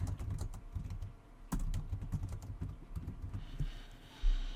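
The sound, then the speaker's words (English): Typing sample text on a computer keyboard: a faint, steady stream of quick, irregular key clicks, with a few slightly heavier strokes and no voices. “just type in some sample text here”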